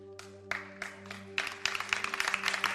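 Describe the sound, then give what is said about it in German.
A few people clap during a church sermon. Quiet, scattered claps come first, with a handful of separate hits, then thicken into a denser patter of clapping toward the end, over a faint steady hum. “ein paar klatschen schon”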